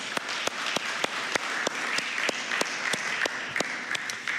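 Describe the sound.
An audience at Restore applauds the staff team, a steady wash of clapping with sharper individual claps popping out at a fairly regular pace throughout.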